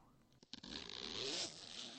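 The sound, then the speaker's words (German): Zipper on a white overall pulled slowly shut by a kneeling figure at a crime scene: a few quick faint ticks, then one long continuous soft rasp to the end. “eine Gestalt im weißen Overall kniete im Lichtkegel und zog langsam ein Reißverschluss zu.”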